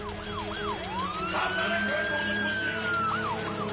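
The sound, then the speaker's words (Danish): A police siren wails in repeated rising and falling sweeps, part of a police news jingle, with a steady tone holding above it and a continuous loud level throughout. “Men bare fyr jinglen af, hvis du har den. Ja, den er jo ret vild, vores jingle.”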